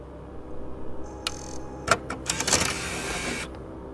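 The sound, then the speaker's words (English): Motorized monitor lowering from the ceiling of a conference room: a mechanical whirr and whine with a few sharp clicks and ticks, rising in density toward the end, then stopping abruptly. “Flip the switch next to it, and the monitor should appear. Found it. Monitor's coming down.”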